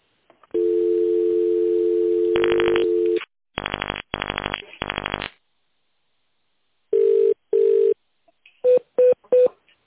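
Telephone tone dialing of an extension number: a steady tone gives way to several loud touch-tone key beeps in quick bursts, then a pause and a few more short beeps.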